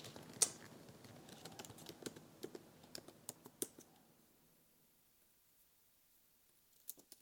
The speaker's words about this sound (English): I didn't want to type the rest of Traveler.